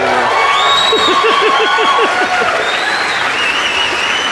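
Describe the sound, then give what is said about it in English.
Loud, steady cheering and applause from a studio audience, used as an effect, fills the whole stretch without a break. “Is the studio audience ready now? Yeah. Are you ready?”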